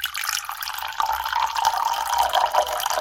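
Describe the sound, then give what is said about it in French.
Water pours steadily into a ceramic vase being filled for a Japanese flower arrangement with a metal pin holder. A continuous rushing splash with no pauses, moderately loud. “Il faut ensuite remplir d'eau le vase en céramique pour fixer branches et fleurs dans le pique-fleur traditionnel japonais en métal”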